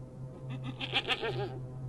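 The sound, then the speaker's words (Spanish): A goat bleats in a wavering, quavering cry that swells and fades over a steady low electrical hum. “escuchamos el balar de una cabra”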